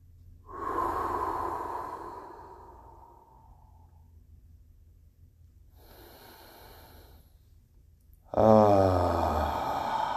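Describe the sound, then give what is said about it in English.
Deep, sweeping breaths during a guided relaxation exercise: a long breathy exhale fading slowly, a softer airy breath after a pause, then a loud voiced exhale with a groaning, sighing tone. “Let's come back to the room with three deep sweeping breaths.”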